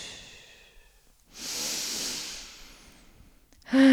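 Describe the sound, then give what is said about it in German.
Deep breathing during a guided relaxation exercise: a faint breath in, then a long, steady, breathy exhale lasting over a second, followed by a brief quieter pause. “Atme tief ein und aktiv und gründlich aus.”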